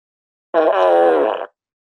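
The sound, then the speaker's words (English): A single loud fart, a steady buzzing blast lasting about one second with a sharp start and a quick cutoff. “But for just the one, you get the fart of the week.”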